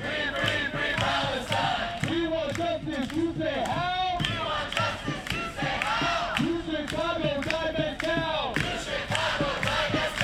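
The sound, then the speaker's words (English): Student protesters demonstrate at the University of Chicago, chanting a short rhythmic slogan again and again. Many voices rise and fall together in a loud, steady, repeating pattern. “I want to hear a little bit of what you were talking about a moment ago, some of the local student protesters who are demonstrating this week. We've got sound from the University of Chicago.”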